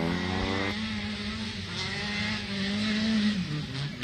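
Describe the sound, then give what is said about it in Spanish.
A race car, number 83, drives on the track as it finishes its run, a loud, steady engine roar with strong tonal harmonics that dips in pitch near the end. “Ignacio Villa, Gonzalo Díaz, máquina 83, terminando su actividad de carrera aquí donde estamos ubicados.”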